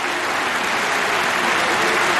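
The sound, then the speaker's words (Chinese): Snooker crowd applauding and cheering in support of player Wu Yize during a match, a dense, even wash of clapping that holds steady throughout. “现场又响起了专属于吴一泽的加油的声音。”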